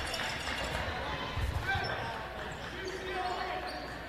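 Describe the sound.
A basketball is dribbled across the court during a girls' high school game. A few dull, low thuds of the ball sound amid court noise, with voices in the background.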